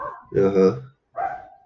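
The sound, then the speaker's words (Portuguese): A dog barks, one drawn-out harmonic bark followed by a shorter second one, with speech-like sounds around them. “Cachorro. Vocês escutaram aí.”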